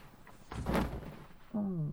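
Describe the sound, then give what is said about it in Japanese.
A person tumbling out of a bed onto the floor lands as one broad, dull thud lasting about half a second, followed shortly by a voice. “どうしたの？いきなりベッドから転げ落ちたりして。”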